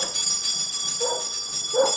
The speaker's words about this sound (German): Reißen Sie mal nicht die Klingel runter!